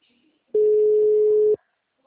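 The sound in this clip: Telephone ringback tone as an outgoing call connects: a single flat, mid-pitched beep lasting about a second, clear against near silence.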